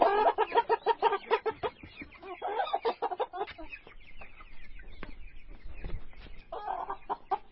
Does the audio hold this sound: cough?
no